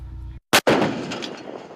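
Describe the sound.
Live-fire artillery shot at a target during an assessment exercise: a single loud, sharp blast followed by a long, rumbling decay that slowly fades, with no voices.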